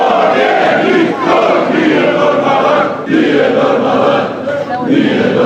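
Hundreds of handball fans cheer and chant loudly at Zagreb airport around 3 a.m., welcoming home their team with bronze medals, a continuous roaring crowd with rhythmic swells and short dips.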